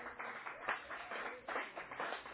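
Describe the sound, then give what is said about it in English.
Audience applause at a live event as the crowd gives the staff and sound crew a big hand: steady, sustained clapping with a dense, even texture, fairly faint and dull. “Give them a big hand.”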